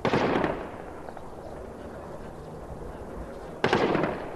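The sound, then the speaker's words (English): Gunfire as Taliban fighters battle police near the peace jirga venue in Kabul: two sharp, loud bursts separated by a few seconds of lull, each decaying quickly into background noise. “The sounds of Taliban fighters attempting to strike today's peace jirga in Afghanistan, waging gun battles with police near the conference venue in Kabul.”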